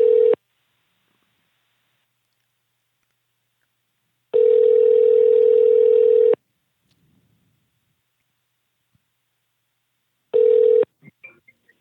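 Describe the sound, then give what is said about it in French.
Ringback tone of an outgoing telephone call, a steady mid-pitched tone in long bursts: a cut-off burst at the start, a full two-second burst in the middle, and another brief burst near the end, followed by a few faint clicks. “On va essayer d'appeler.”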